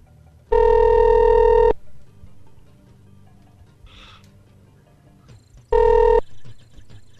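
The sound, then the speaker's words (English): Telephone ringing while calling extension 117: two bursts of a steady, buzzy electronic ring tone separated by a long silent gap, the second burst shorter than the first. No voices are heard. “Let's see if he's ready to pick up yet. What do you think would be next to 117? Yeah, definitely. I tried 121, and that didn't answer. So let's try 117.”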